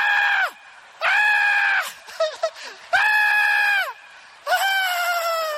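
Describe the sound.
A voice imitating a scream, with four high, shrill shrieks in a row separated by short pauses. The last three are held for about a second each, and a few quieter vocal sounds come between the second and third.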